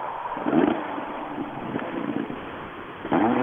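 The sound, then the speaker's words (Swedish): White BMW rally car arriving at the time control, its engine surging in a short rev near the start and again at the end, with a lower running note and some wind noise between. “Vi ska se, vi får en BMW, en vit, eh, som anländer tekon precis nu.”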